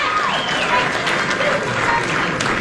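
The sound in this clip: Applause at the swearing-in of Virginia's Lieutenant Governor. A crowd claps steadily with scattered cheers and voices mixed in, loud and sustained through the short stretch.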